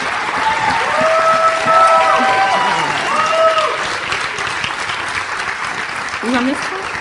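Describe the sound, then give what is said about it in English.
An audience stands and applauds as guest pastors are welcomed to the platform, with steady, dense clapping and crowd noise and some cheering voices throughout, easing slightly toward the end. “Yep, go ahead, stand, give them a good hand, and we'll welcome them up.”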